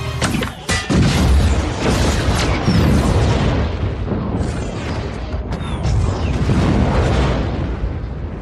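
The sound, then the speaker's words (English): Heavy booming blasts from a cycler rifle in a dense, loud mix, with a few sharp cracks standing out over a continuous rumbling roar. “Hand me that cycler rifle.”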